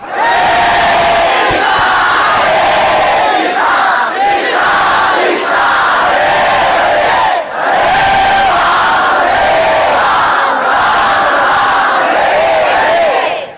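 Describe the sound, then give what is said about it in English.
A crowd of about 2,000 devotees chanting Krishna in unison, a loud, continuous wall of voices with repeated melodic phrases rising and falling in waves. “What is the use of being 2,000 people if that's as loud as you can chant?”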